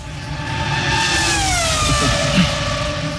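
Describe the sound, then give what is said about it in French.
Sebastian Vettel's Aston Martin Formula 1 race car gives a loud, sustained, high-pitched engine whine. Its pitch dips partway through, then holds steady. “On va se baquer dans l'Aston Martin de Sébastien Vettel.”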